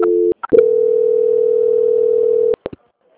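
A telephone tone during a call transfer. A short two-note tone and clicks give way to a loud, steady single-pitched tone held for about two seconds, and a couple of sharp clicks end it before quiet.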